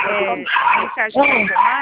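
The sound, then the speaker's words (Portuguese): A dog barks and yips in a loud, unbroken string of high, whining calls, heard alongside talk. “O cachorro latindo, misericórdia, pode falar.”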